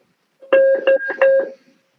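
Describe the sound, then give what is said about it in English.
A school bell rings as a short electronic chime: a few clear, sustained tones in quick succession, bright and fairly loud, then stopping. “We're not editing that out, people. That means there's a bell and everybody's starting to move.”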